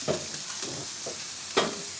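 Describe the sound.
Eggs sizzle on a hot griddle while a breakfast sandwich is cooked, a steady bright hiss broken by a few sharp taps or scrapes.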